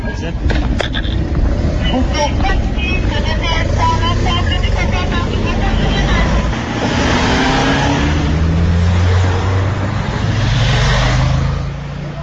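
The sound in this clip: A minister's car drives off toward the station: a loud, continuous engine rumble that accelerates, its pitch climbing in the later seconds, with voices mixed in.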